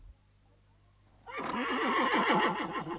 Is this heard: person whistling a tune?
no

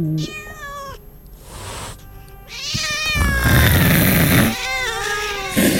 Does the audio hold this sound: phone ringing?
no

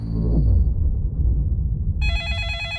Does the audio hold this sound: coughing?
no

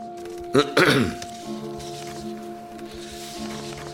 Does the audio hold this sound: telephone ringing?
no

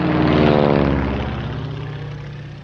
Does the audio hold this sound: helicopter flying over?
yes

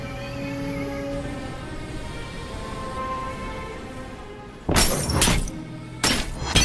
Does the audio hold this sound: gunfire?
yes

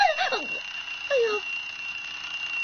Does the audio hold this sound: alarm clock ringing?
yes

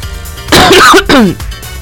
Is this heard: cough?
yes

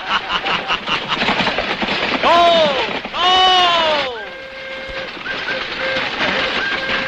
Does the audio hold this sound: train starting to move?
yes

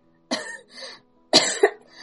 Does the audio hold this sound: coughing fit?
yes

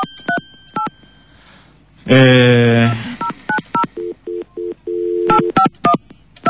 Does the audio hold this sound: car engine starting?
no

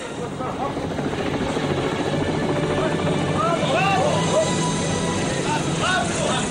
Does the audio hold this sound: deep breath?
no

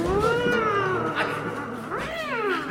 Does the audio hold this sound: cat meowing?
yes

